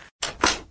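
A solid door with a strong lock shuts in two quick, fairly loud knocks, the second heavier and longer, with a short silence before them.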